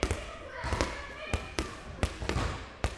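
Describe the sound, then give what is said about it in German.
A basketball bounces while children play, giving a series of dull thuds at irregular intervals, with voices talking over them. “Wir spielen Basketball, weil uns Basketball spielen Spaß macht. Wir machen auch Basketball.”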